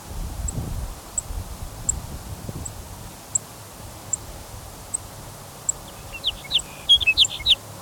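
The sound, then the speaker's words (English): A sage sparrow, probably a female, gives thin, high chip notes at a slow, steady pace, many times over faint rustling, then ends with a brief flurry of busier high calls. “Another sage sparrow chipping, probably a female.”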